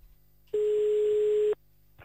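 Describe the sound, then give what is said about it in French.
A single steady telephone line tone plays while a call is being placed. It is a clear, low-pitched beep lasting about one second, standing alone above quiet line noise. “On appelle à Tumain maintenant.”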